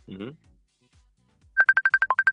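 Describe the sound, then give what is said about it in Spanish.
A telephone rings on an outgoing call as a rapid run of many short, bright, evenly spaced beeps. A brief voice is heard just before a quiet gap. “estamos llamando por aquí a Nanes, a ver si lo puede coger bien.”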